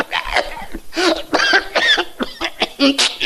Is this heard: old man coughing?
yes